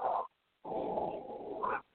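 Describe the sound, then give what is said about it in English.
A female dog gives two growling, drawn-out vocalizations: a short one, then a longer one lasting about a second. They are fairly faint and alone, with no talk. “That's my dog just deciding that she wants to bark right now.”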